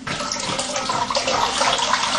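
Hot water runs steadily from a tap to warm a dish during a cooking demonstration, a continuous bright rushing splash without pauses, heard alone.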